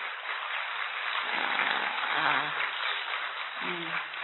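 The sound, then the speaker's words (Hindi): An audience claps along to a Hindi devotional song about smiling and rejoicing, producing a steady, even patter of applause with a singing voice faintly carried over it. “ताली तो बजाओ”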